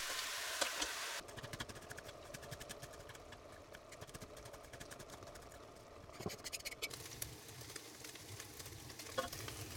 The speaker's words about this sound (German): Das Fleisch müssen wir jetzt erst scharf anbraten. Dazu nehmen wir ein paar Stücke Butter und lassen es erstmal zergehen. Während das Fleisch brät, kann man schon mal die Zwiebeln schneiden.